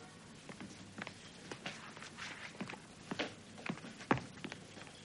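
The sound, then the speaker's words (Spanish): Rapid footsteps as someone runs down courthouse stairs: many quick, irregular impacts at moderate loudness, a few landing harder than the rest, with no talking. “corre por las escaleras de los tribunales.”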